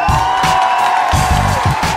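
A loud audience cheers and applauds as performers are introduced, a dense, steady wash of clapping and whooping that continues evenly throughout.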